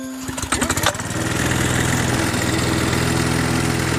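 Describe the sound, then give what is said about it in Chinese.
Ride-on lawn mower engine sputters a few times as it catches, then settles into a loud, steady mid-pitched drone as the mower drives forward. “这是除草机是吧？ 我先示范一下哈。”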